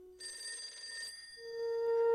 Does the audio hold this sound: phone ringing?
yes

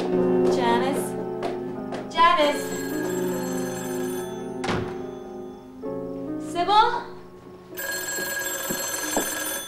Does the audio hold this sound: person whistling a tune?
no

